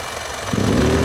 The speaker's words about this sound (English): Trimming the hedge, huh? Yep. Me too. 22 inches. Electric.